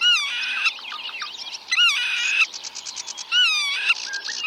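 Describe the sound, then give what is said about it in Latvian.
Black-tailed godwit calls sound in a run of loud, high, nasal cries, with three stronger bursts and quicker chattering notes in between, over a soft hiss of background noise. “un viņas saucienus var bieži dzirdēt, it īpaši tad, ja ligzdošanas vietas tūmā parādās kāds plēsējs vai cits traucētājs. Tad melnās puskuitalas skaļi kliegdamas brūk viņam virsū.”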